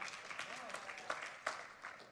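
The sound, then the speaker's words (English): Scattered light golf clapping from a church audience during a Sunday service, a few sparse, uneven claps spread across a couple of seconds. “some scattering little golf clapping right there.”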